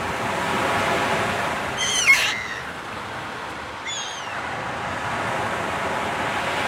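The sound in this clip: Constant broad wash of sea surf at a seaside pier where someone sits fishing, an even rushing roar throughout, broken by two brief high-pitched cries early and midway.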